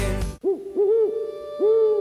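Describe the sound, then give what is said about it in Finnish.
Three low, hollow owl hoots follow a brief burst of other sound. Each call is a smooth, tonal note, and the last one is the longest. “Pöllöt valtaavat Limingan.”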